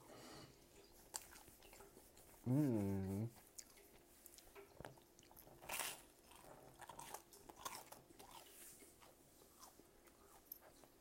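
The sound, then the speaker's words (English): Biting into and chewing a bagel gives faint crunches and soft, irregular chewing clicks over several seconds, with a brief voiced hum near the start. “Bagel's good.”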